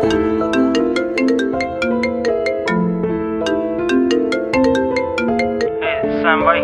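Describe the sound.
A phone ringtone plays a bright, bell-like melody of quick plucked notes over sustained harmony, repeating steadily and fairly loud throughout.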